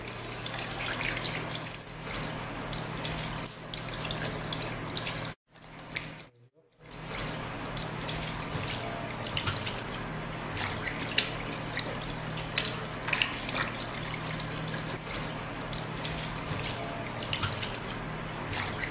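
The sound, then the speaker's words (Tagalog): Running water splashes steadily as feet are washed up to the ankles during Islamic ablution. The flow is continuous apart from a brief break midway. “Hugasan ang magkabilang paa hanggang sa bukong-bukong ng 3 beses.”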